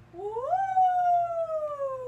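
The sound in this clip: A person's voice imitates a Sasquatch call as one long howl. It climbs quickly, then sags slowly in pitch over about two seconds, sounding alone and moderately loud.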